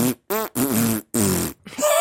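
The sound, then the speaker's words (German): Fart-like blasts are strung together to play a TV theme tune, five tonal bursts with short gaps between them, each wobbling in pitch so they form a rough melody, fairly loud and with no talk over them. “Ich kann die Titelmelodie von der Maus pupsen. Pass mal auf.”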